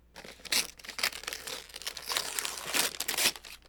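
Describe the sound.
Paper crinkles and tears as a Christmas gift from a stocking is unwrapped, with continuous rustling broken by a few louder crackling bursts.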